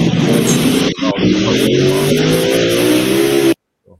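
A race car on a Saturday night track in Chickasha, its engine loud and steady and then revving upward in pitch, running alone with no voices before cutting off abruptly.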